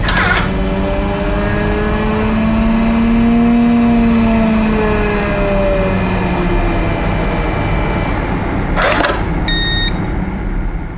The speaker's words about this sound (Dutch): En dat is eigenlijk een basis kleine centrifuge.